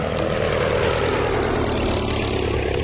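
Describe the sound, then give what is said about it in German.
Loud, steady drone of a propeller airplane flying over a forest in 1921, loaded with 60 kilograms of lead arsenate to poison caterpillars. The engine hum runs continuously with no breaks and no voices. “peilt der Weltkriegspilot John McGrady den Wald an. An Bord der Maschine sind 60 Kilo Bleiarsenat.”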